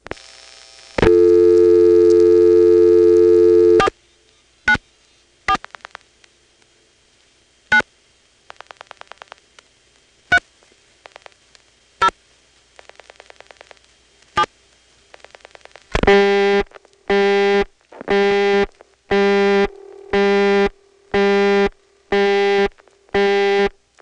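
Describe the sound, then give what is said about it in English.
A telephone register sender dials office code 494 and four more digits. A steady dial tone gives way to irregular groups of sharp dial-pulse clicks, then a run of short, evenly spaced tone bursts. “So when I dial the office code 494, the register sender simply converts that to 4. Then it dials my last 4 digits after I dial them.”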